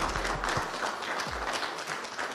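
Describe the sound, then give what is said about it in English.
Applause at a Chicago event marking the first COVID-19 vaccine shots: dense, steady clapping from a group, holding an even level throughout without a break. “So we applaud? I think so.”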